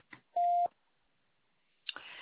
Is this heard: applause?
no